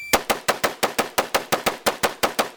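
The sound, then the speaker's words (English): An AR-15 rifle is fired as fast as possible by an expert shooter switching between targets, with one trigger pull per shot: a loud, evenly spaced string of sharp cracks, about six per second, with no pauses. “This is an AR-15 being fired by an expert shooter as fast as he can while selecting between targets.”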